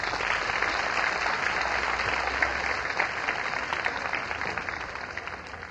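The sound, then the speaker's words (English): An audience applauds a folk song performance with dense, steady clapping that holds at an even level from start to finish. “But it was mighty pretty. Let's give them another hand.”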